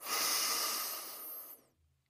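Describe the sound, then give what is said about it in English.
A single long, deep breath, a soft steady rush of air heard on its own, tapering off into near silence. “First, let's take a deep breath.”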